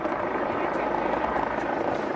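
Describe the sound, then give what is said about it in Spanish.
Helicopters flying over a city area while vehicle convoys pass below, making a continuous low droning rumble with a fluttering rotor texture that holds steady throughout. “El estruendo de las caravanas de vehículos con las delegaciones rumbo a IFEMA se mezclaba con el de los helicópteros sobrevolando la zona.”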